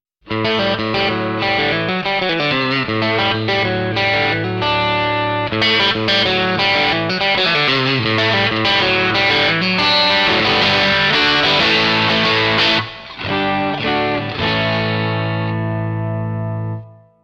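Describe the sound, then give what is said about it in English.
Electric guitar played through a BD-2 Blues Driver overdrive effects pedal set for mild, bluesy tube-amp style overdrive. Loud, steady chords and notes ring out continuously, with a final chord sustaining and fading; no voices. “The BD2 is like having a bluesy vintage tube amp in a compact effects pedal. For producing mild overdrive sound.”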